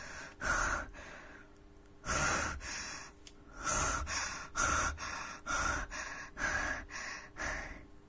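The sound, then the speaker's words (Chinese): Rapid, heavy breathing from a tense man backing toward a warehouse door while holding a hostage at knifepoint: many loud, rasping inhales and exhales in a quick, uneven rhythm, with no speech. “他的呼吸越来越急促”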